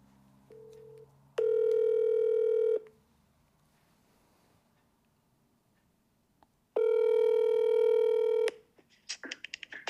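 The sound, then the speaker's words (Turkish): Telephone call tones while calling a friend who lives in America: a brief low beep, then two long, steady ringing tones separated by silence. A few sharp clicks follow at the end. “Bir arkadaşımı da arıyorum. Ee, bakın bilmesi, bu arada çok muhtemel bir arkadaşımı arıyorum. Amerika'da yaşıyor çünkü. Arayalım.”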